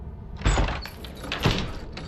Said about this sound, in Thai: เปิดประตูหน่อยครับ